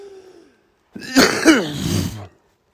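Harsh throat clearing and coughing from someone with pneumonia: a faint rasp, a brief pause, then a loud, rough burst that rises and falls in two stronger peaks before stopping.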